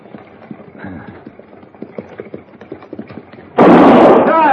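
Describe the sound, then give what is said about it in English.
A single gunshot fired into the air in a Western radio drama bursts in loudly near the end and rings on. Before it come the steady, quick clip-clops of horse hooves over a rough trail. “If I fire again, Morgan, it won't be in the air.”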